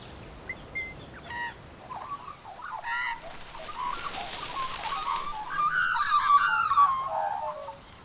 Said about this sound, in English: The magpie is perched on a branch next to his nest.